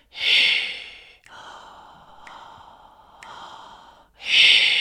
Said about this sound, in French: donc là j'ai fait un temps d'inspire, trois temps d'expire, puis après on va faire l'inverse